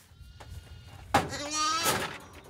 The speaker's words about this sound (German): Hier haben wir ein frisch geborenes Lamm da vorne, das ist aber, dem geht's gut, es hat schon getrunken.